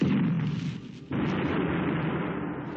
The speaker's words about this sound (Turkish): Benzin deposu patladı.